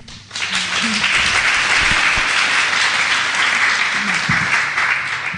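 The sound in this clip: Audience applause welcoming a moderator and panel onto the stage at a panel discussion event, rising quickly from quiet into a dense, steady wash of clapping that holds for about five seconds before easing slightly.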